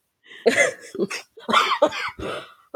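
A sick person coughs in a few harsh, rough bursts with brief gaps between them.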